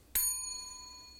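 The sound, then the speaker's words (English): A bell is struck once, giving a bright, clear ringing tone with several steady overtones that sustains and slowly decays. The strike is fairly quiet and stands alone without voices. “The whole striking of the bell.”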